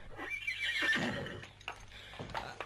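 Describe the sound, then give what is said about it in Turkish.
A restless horse whinnies in a long, wavering neigh, followed by a few shorter, quieter bursts of sound. “At huysuzlanmaya başladı. İpini koparmasından korkuyorum.”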